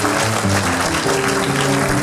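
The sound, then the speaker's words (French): Applause from a concert audience greeting the musicians: dense, steady clapping that holds at an even level throughout, with a low tonal layer faintly audible beneath it. “Alors, on peut l'applaudir, hein, voyez, hein.”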